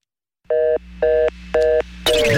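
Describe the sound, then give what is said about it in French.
Telephone line tone after dialing a call: three short, even beeps with brief gaps over a low steady hum, followed by a rougher burst of sound as the line changes. “On se connecte au réseau. 561. Allô, y a-t-il quelqu'un au bout du fil”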